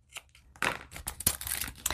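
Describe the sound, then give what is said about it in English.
Washi tape is torn by hand while crafting stuffed junk-mail envelopes, a quick crinkly ripping made of several short, papery crackles, fairly faint and heard alone. “I'm just going to tear it, then I'm going to put this down flat. I know, I tore it, I did, but then I'm just going to slap some more washi around that end.”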